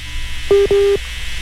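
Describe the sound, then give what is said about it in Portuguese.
A dropped phone call on a radio call-in line gives two steady electronic beeps of the same low pitch, each lasting about a quarter second, over a constant background hum. “Ei, Irineu. Caiu a ligação do Irineu? Caiu. Eu vou retornar a ligação para ele poder conseguir rezar conosco.”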